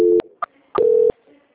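Telephone tones as a call is being transferred: a short steady tone, then a brief higher beep, then a longer steady tone of the same pitch as the first, clear and with no voices.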